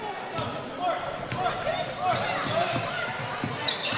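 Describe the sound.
A basketball is dribbled on the court during a high school game with Spring Ford, several bouncing thumps under a man's running commentary.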